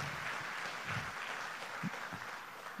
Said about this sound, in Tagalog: Pwede bang ibigay natin ng malakas sa palakpak at papuri natin sa ating Panginoon